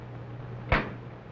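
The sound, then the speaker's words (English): Science fiction time machine moving effect: a low, steady electrical hum with one short whooshing burst midway that fades quickly. “Stand by to move the time machine ahead 4 days to Sutter's Fort in Sacramento.”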